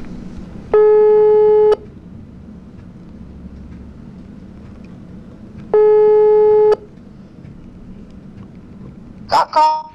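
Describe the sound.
Two long ringing tones of an outgoing telephone call waiting to be answered, each about a second long and spaced several seconds apart, sound clearly over a low background hum.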